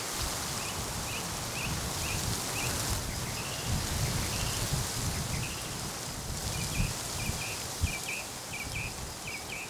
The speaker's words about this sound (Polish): Ależ wieje, ale śpiewak, jak słychać, się tym nie przejmuje.